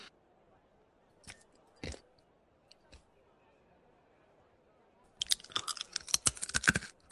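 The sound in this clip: Food crunches right into a microphone: a few isolated crunches, then a rapid, loud cluster of crunchy bites near the end, over faint talk.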